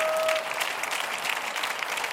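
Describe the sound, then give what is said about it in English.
A church audience claps together, making a dense, steady applause that stays fairly loud and even from start to finish, with many overlapping hand claps. “So I'm going to clap.”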